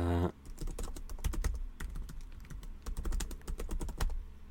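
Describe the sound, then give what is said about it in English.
Typing a note on a computer keyboard: many rapid, steady keystroke clicks in a busy, continuous run, with no voices. “Hang on, let me just write something.”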